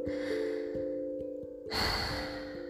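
A deep inhale swells partway through, a breathy rush of air lasting about a second over soft sustained music with a gentle, regular pulsing beat underneath.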